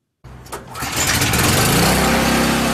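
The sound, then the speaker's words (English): A generator at Amato's Cheesesteaks in Saratoga starts during a power outage: silence, then a sudden sputtering catch that quickly builds into a loud, steady engine roar. “William Ville, owner of Amato's Cheesesteaks in Saratoga, has been working diligently to get his generator up and running and get cooking.”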